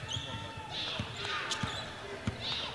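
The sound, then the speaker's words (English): A basketball is dribbled during a women's game, giving several dull, evenly spaced bounces under a commentator's talk, with sneaker squeaks in between. “She'll slow the pace a bit as she brings it into the front court. Comes right on the dribble.”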